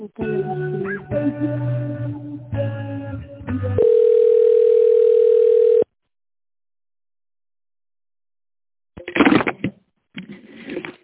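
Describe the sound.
A telephone line tone plays while a call is transferred to the accounting department. A steady single-pitch tone lasts about two seconds after a stretch of shifting tones, then the line falls silent.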